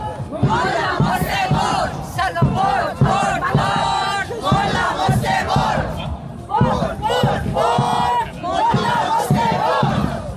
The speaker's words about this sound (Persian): معترضان در راهپیمایی حدود یک ساعت در خیابان‌های مرکزی مالمو حرکت کردند و با شعارهای علیه قطعی اینترنت، اعدام و سرکوب حکومتی تلاش کردند صدای مردم ایران را به افکار عمومی سوئد برسانند.